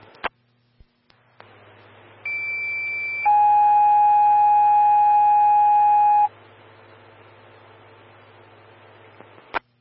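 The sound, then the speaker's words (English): Dispatch alert tones for Evergreen Fire Station 2 on a medical call: a loud, steady higher tone holds for about a second, then a lower tone holds for about three seconds, with clicks before and after. “Fire Station 2, engine 132, medic 122. Stand by for tones on an unknown medical alarm.”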